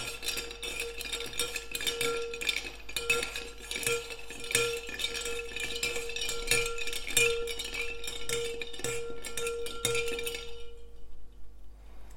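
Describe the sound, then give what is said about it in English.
Ice clinks and rattles as a Last Word cocktail, built in a shaker, is stirred rather than shaken. The rapid, continuous chiming and scraping lasts about ten seconds, then stops abruptly into near silence. “I'll pop the lid on there, and then although I've built this drink in the shaker, we're not actually going to shake it. We're going to give it a good stir.”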